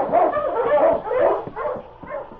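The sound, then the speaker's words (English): A sled dog barks out on the trail, giving a few short, gruff barks mixed with higher yips and whimpering sounds, loud and close together across the whole stretch. “Sergeant Preston and his team were halfway to the LaRoche cabin when suddenly King began to bark.”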